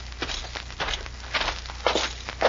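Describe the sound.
A man's footsteps as he walks into a sheriff's office, a steady series of moderate, evenly spaced steps with a slight scuffing texture, heard alone without talk.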